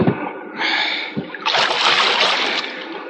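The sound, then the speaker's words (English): A boat paddle stroking through water out on a bay: a rushing splash that swells, then a louder, broader wash of water lasting a couple of seconds. “Quiet! Quiet! One more sound from that paddle, and I will shoot.”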